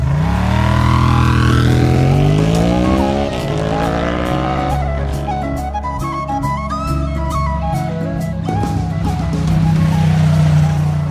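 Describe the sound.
A motorcycle carrying two riders pulls away along a country back road across a border in County Louth, its engine a loud, continuous drone whose pitch climbs, then settles.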